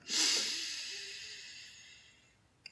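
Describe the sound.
A long inhalation through the nose during a 4-7-5 breathing exercise starts as a strong, airy hiss and slowly fades over a couple of seconds. It ends with a small click.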